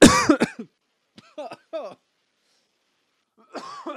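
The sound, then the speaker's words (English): Coughing and throat clearing from someone choking on their own saliva while talking excitedly: a harsh opening burst, a few short strained coughs, then a pause before more coughing. “I start getting excited and start talking, and I'll start choking on my own spit because I'll inhale my own spit.”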